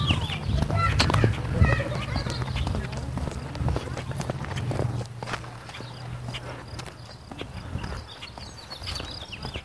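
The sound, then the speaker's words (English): Grackles call from a bush beside a park with short, sharp chirps and whistles over steady walking footsteps and a low background rumble. “There's a couple of grackles in the bush here.”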